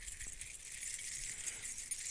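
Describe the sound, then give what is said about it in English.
Keys jangle in a faint, continuous metallic shimmer, shaken by hand during a sermon. “When the devil comes around, God does the key thing with him. He just goes like this.”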